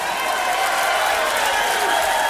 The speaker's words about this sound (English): I tell you what, I'd like for everybody to keep those round of applause together.